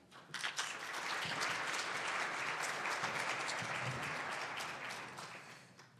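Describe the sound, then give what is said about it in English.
Audience applause welcoming speakers at a presentation, a dense, steady wash of clapping that swells quickly, holds for several seconds and tapers slightly at the end. “So please give a warm welcome to our speakers.”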